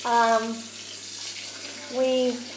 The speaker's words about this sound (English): That's the dog's bowl washed.